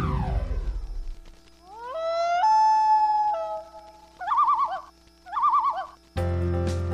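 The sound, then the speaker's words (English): A common loon calls with a long, rising wail that holds and then slides off, followed by two quavering tremolo phrases. The calls are clear and stand alone, and a brief noise fades out at the very start. “That sound? It's the voice of the wilderness. The call of the common loon.”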